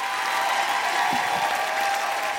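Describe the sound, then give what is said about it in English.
A comedy-show audience gives a big round of applause for a comedian: a loud, steady, dense wash of many hands clapping holds evenly throughout, with no voices rising above it. “Can everybody just say a huge thank you, a big round of applause for the wonderful Tiff Stevenson?”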